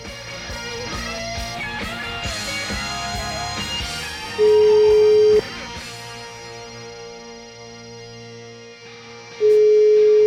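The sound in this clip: Ringback tones of an outgoing telephone call: two steady one-second beeps about five seconds apart, following a short stretch of fading music.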